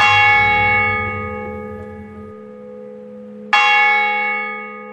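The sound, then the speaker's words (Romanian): Church bell striking one after midnight: a deep, ringing tone fades slowly, then a single fresh, loud stroke sounds and rings on with long, shimmering overtones. “Unul după miezul nopții sună rar în vecinătate.”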